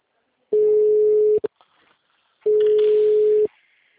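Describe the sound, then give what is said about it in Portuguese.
Ringback tone of an outgoing phone call, two steady mid-pitched beeps about one second each, separated by a pause of roughly a second, with a faint click after the first. “Tô ligando.”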